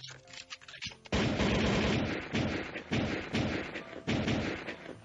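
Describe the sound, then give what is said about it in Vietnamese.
Gunfire from a gun shot repeatedly in a small underground room: after a quieter, uneven opening, a loud, dense barrage of shots begins and keeps going in rolling surges to the end. “Tiếng súng đoàn đoàn vang ầm ầm rung động cả một cái gian phòng nhỏ dưới đất.”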